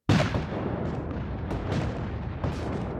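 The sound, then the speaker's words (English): Gunfire erupts as Rebel troops open fire on Union lines in a peach orchard battle: a loud, dense, continuous roar of shots and booms with a few sharper bursts standing out, and no voices. “Rebel troops just opened fire.”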